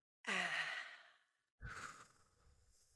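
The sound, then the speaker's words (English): A deep breath is drawn in and let out: a long, loud, airy exhale that fades away, followed after a short pause by a second, softer breath that trails off. “Take a deep breath in.”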